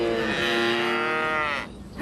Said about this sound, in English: I think that I've been overheard by a herd who feels it's been overlooked. Yeah, that's right, cows are mammals too.